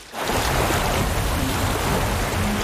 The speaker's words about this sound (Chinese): 水来了， 让冰墙挡走